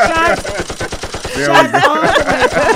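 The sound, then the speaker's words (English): Rapid automatic gunfire used as a sound effect: many quick, evenly spaced shots in a steady burst across the whole clip, loud, with a voice talking over part of it. “Hey, we need some shots fired there.”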